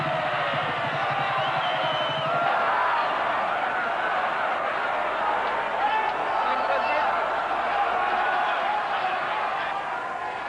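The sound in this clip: A crowd in Athens in 1957 gives Archbishop Makarios a hero's welcome: a loud, dense, unbroken roar of massed voices that holds steady from start to finish.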